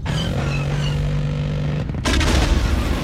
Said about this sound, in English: We got her! We blew that ship out of the air!